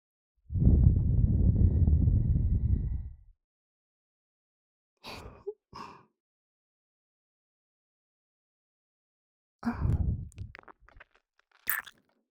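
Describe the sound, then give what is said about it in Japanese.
A long, soft breath is blown into the microphone, followed by two quick kiss smacks, a second breath and one final smack, each separated by silence. “ふうってしたら、びくってしたよ。チュッてしても、反応しちゃってたね。”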